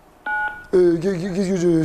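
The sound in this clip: A short two-pitch telephone beep chimes once, fairly soft, and a voice starts speaking right after it.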